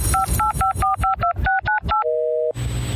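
Telephone keypad tones: nine quick two-note beeps in a brisk, slightly uneven rhythm, followed by a lower steady tone lasting about half a second and then a short burst of hiss.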